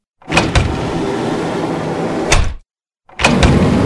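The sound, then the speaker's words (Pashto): A shop door being pulled shut: a loud grinding roll of about two seconds ending with a clank, then a short silence and another rattling burst. “خو بس زمه چې چرته یارانو دوستانو سره لږ وخت په خوشحالۍ تیر کړم، دکان به لږ وخت دپاره بند کړم.”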